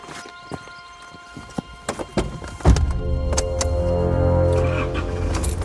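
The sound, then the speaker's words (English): A Jeep on a safari ride at Cragside: a few sharp clicks and knocks over a faint hum, then a louder burst as a steady low engine rumble with humming tones takes over to the end. “now we've got a Jeep.”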